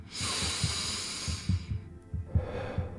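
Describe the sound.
A deep breath: a long airy rush that thins out briefly near the end and then resumes, over a steady, throbbing low beat.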